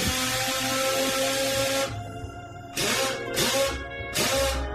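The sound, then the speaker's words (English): An impact wrench loosens a metal plate: a long, steady whirring run with a motor whine, then three shorter, loud rattling bursts separated by brief pauses. “Fortunately, I had an impact wrench on my Swiss Army knife. Hey, I got that plate loose and I threw it out the window.”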